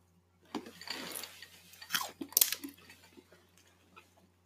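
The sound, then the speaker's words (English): Biting and chewing of fruit that looks like grapes, with crisp, crunchy bites followed by wet chewing. Several louder crunch bursts stand out among the softer mastication, with no talk. “So, with this being said, first bite.”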